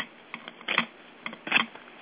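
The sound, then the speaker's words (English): A deck of cards being shuffled for a card reading: a few short papery riffling bursts in an uneven rhythm, with two louder flurries standing out among softer ones, and no talking. “All right, I'm going to shuffle the deck.”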